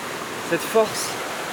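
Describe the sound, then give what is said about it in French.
Mountain waterfall cascades give a steady, broad rushing of water throughout, with a couple of brief vocal sounds over the torrent. “Vivante, et là ça le démontre bien. Ces cascades,”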